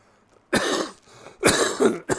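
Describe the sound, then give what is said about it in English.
Several harsh, loud coughs from a person with COPD, in short rough bursts of uneven length with brief gaps between them, and no speech. “I know when I was coughing just then, I don't have the virus. I have COPD, so I cough anyways”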